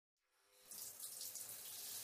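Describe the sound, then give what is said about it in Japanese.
Water runs from a tap while conditioner is rinsed out of hair, fading in from silence and then settling into a faint, steady splashing hiss. “頭流しますね”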